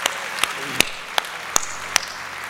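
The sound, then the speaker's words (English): A church audience applauds to welcome new believers, a steady bed of clapping marked by a few sharp, louder claps that stand out at roughly even intervals. “Can we put our hands together and welcome new believers to God's family today?”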